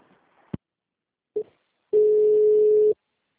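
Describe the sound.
Telephone busy tone after a dropped call: a sharp click, then a brief low blip, then a steady low hum lasting about a second before stopping abruptly, loud against silence, with no talk.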